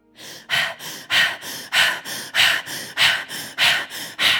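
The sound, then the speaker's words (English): Rapid open-mouth breathwork, with the belly pumping in and out, makes many loud, forceful breaths in a quick, steady rhythm. Each breath is a short burst of airy rushing noise, and the breathing goes on without any talk. “So it will sound like this. My mouth is open and my belly is going to be pumping in and out, in and out, in and out.”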